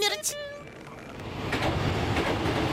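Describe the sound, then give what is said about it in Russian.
A metro train moving through a tunnel, a broad, rumbling roar that gradually builds in loudness, preceded by a brief tonal sound at the very start. “Сейчас состав немного тряхнет. Будьте осторожны.”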